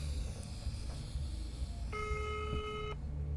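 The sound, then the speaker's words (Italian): A telephone ringing tone on a call line, one steady buzzing burst of about a second over low background noise. “Le linee sono intasate? Non credo. No, sta squillando.”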